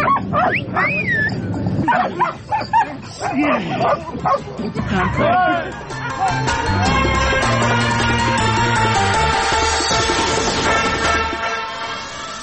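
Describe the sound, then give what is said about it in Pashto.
Dogs at a UN mine-detection dog training centre in Kabul bark, yip and whimper in busy overlapping bursts while people talk nearby. “د ملګرو ملتو په یو مرکز کې په کابل کې 200 سپي د ماینونو د پلټنې لپاره روزل کیږي. د مرکز ته مو هم ورولو.”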